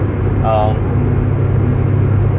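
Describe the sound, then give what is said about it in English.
Steady, loud low road rumble and engine drone from inside a car driving home to an apartment in Concord, continuous throughout with no pauses. “As I drive back home from visiting, well, I guess it depends on your definition of home. I'm driving back to my apartment in Concord after visiting my family”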